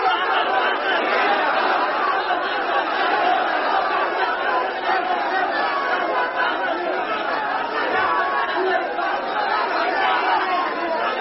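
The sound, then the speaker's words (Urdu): A large crowd at a religious rally shouts a slogan in response to a call. The roar of many voices is loud and continuous, with no pauses throughout. “جس نے صحابہ کے دشمن کو کافر کہہ کے تختہ دار پہ چڑھنا ہو، وہ نعرہ لگا دے۔”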